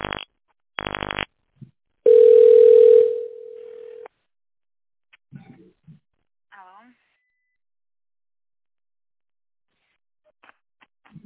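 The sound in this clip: Telephone line tones sound as a call connects: two short buzzing bursts, then a longer, louder steady tone that carries on more faintly for about two seconds, followed by a few faint, brief scattered sounds.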